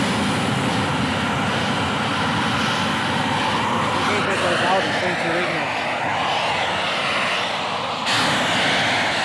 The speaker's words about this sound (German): Fantastisch, ein scharfer blauer Flammenstrahl stand da jetzt hier 30 Sekunden lang über dem Gelände. Ja. Ein Donnern war das.